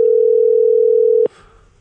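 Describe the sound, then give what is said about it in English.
A telephone dial tone sounds while a call is placed, a single steady pitch that holds unbroken for a little over a second before cutting off abruptly, leaving only faint noise. “let's call Dave, see what he's got going on”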